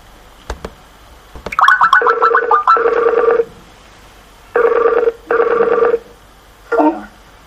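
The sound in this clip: A telephone rings while a caller calls back after a failed connection. A few clicks lead into loud bursts of warbling, bell-like electronic ringing that repeat in a steady pattern, ending in a short fainter tone.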